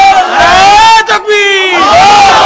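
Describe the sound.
A crowd at a Bengali Islamic sermon shouts loudly in unison, sustained voiced cries that swell and hold, dip briefly near the middle, then surge back strongly to the end.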